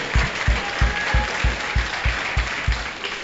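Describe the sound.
A church audience claps in unison during a French-language sermon. About ten even, steady beats land at a regular rhythm over a soft crowd background.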